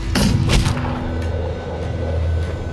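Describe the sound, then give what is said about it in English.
A pistol shot fired by a rider on a rearing, startled horse: a heavy boom near the start, then a steady low rumble that carries on to the end. “the horse reared back, startled, nearly throwing its rider, who fired his pistol. The shot caught her in the forehead.”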